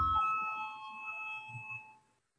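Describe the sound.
The voting bell rings in the Latvian parliament, the Saeima. A faint, sustained electric ringing tone holds steady for about two seconds, then cuts off.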